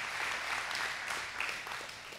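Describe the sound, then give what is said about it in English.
A church audience applauds in a soft, even wash of many hands clapping that stays steady and fairly faint throughout. “Can we give God some applause for what he has done?”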